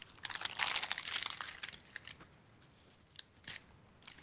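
Wrapping paper crinkles and rustles as a wrapped gift is opened. A dense burst of crinkling comes first, then fades to a few sparse, faint crackles.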